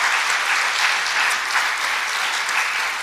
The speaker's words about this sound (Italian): Volevamo fare un applauso al Signore.